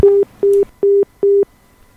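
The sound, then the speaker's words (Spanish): Telephone busy tone after a phone call was cut off: four steady, evenly spaced beeps at a low-mid pitch with short silences between them, heard alone with no voices. “Lamentablemente se nos cortó la comunicación allí con La Negra”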